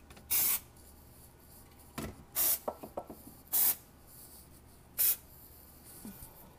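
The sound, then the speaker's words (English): An aerosol spray can sprays in four short, sharp hissing bursts, evenly spaced, with a few faint clicks and taps in between. “Oh wow, that really sprays a lot.”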